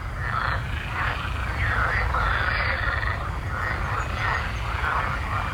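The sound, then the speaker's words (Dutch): Chorus of many green frogs at a small lake on an estate near Zeist, Netherlands: dense, overlapping croaking and trilling that keeps up steadily throughout, over a low background rumble, with no voices. “Toen ze met haar zus aan het picknicken was aan een meertje op landgoed Heidestein bij Zeist, werd ze begroet door een enorme massa groene kikkers.”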